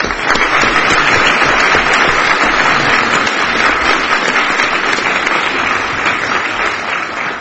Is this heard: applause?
yes